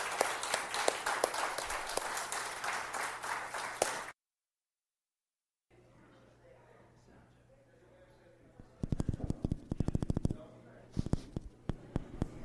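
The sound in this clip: A church audience applauds to welcome newly supported missionaries, with bursts of clapping that surge loudly in two waves near the end after a quieter stretch.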